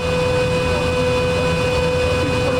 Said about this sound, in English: That generator is powered by natural gas and sounds like this.